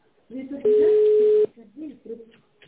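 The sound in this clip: A telephone number is being dialed: a single steady, pitched phone tone holds for almost a second, with talking before and after it.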